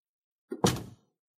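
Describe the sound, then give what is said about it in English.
A door being shut inside a house: a short light click, then one solid thunk that dies away within about half a second, heard alone. “I close the door.”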